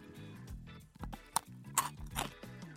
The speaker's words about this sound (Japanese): 1本は噛み切るのに半分の時間しかかかんないから喋りながら食べやすい